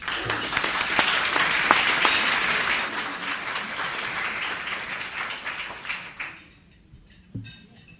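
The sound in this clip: At College of St. Mary, an audience applauds a student speaker heading to the podium. Loud, continuous clapping gradually thins and fades out in the last seconds, leaving near silence.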